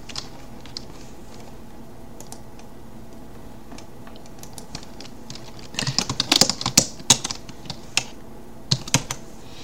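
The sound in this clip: Typing on a computer keyboard: soft, sparse keystrokes over a faint steady hum, then a denser run of louder, irregular clicks in the second half.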